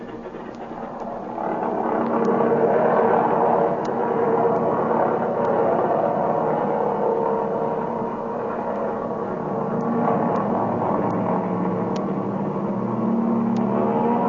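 An aircraft engine roars as the plane takes off down an airfield runway, a loud, steady, broad drone that swells in after the first couple of seconds and holds to the end.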